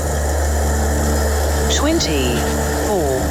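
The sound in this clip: Petrol pump sound effect for a cash prize game featuring a dodgy pump: a steady, loud, low mechanical hum runs throughout, with a few brief sweeping electronic chirps and tones rising and falling over it in the second half.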